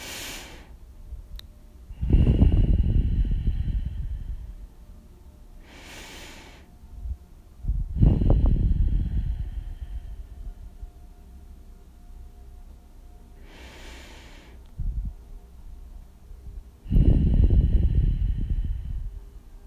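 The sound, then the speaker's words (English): Deep breaths in and out during a guided breathing exercise: three loud, rushing exhales, each preceded by a softer, airy inhale, with quiet pauses between them. “Deep breath in. Slow breath out. 3 times.”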